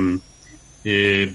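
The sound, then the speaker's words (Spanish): Loud buzzing of a fly, a steady droning hum in two bursts separated by a short gap. “Uy, tengo por aquí una mosca que si pudiera la mataba a cañonazos.”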